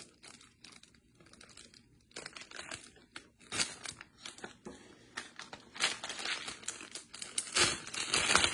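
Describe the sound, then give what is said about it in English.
Plastic crinkling and crackling as a heating and sealing gadget cuts open a plastic seal, in irregular bursts that start faint and grow louder and denser toward the end. “So let's try this one out. Cutting in here. So you're going to unseal it.”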